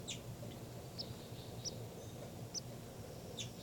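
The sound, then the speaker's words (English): Bird calls at a nest: a few brief, high chirps spaced irregularly over a faint, steady background hiss. “I'm at the nest. Definitely hear the calls.”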